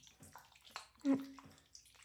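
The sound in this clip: Soft water splashing and rubbing as a child's body, arms and armpits, is scrubbed in a bathtub. The sounds are faint and irregular, with one brief louder burst near the middle.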